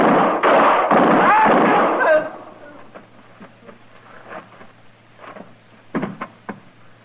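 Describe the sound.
Gunshots in a radio western gunfight, a loud, booming burst of shots up front that decays away, followed later by a few sharp, quieter cracks.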